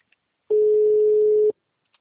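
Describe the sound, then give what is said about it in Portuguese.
A telephone dial tone sounds while a call is being placed: one steady, mid-pitched tone lasting about a second, alone, framed by faint clicks. “Vou ligar pra ela agora.”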